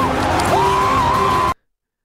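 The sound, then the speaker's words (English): A man shrieking, one prolonged high yell that holds a steady pitch over a dense roar of crowd noise, then cuts off abruptly into silence. “That Tom Brady shrieking like that does not scare me.”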